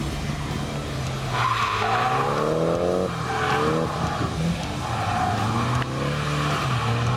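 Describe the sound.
Loud, continuous tyre squeal from a Nissan S15 drifting during practice in Ireland, backed by a droning engine; the screech wavers up and down in pitch throughout.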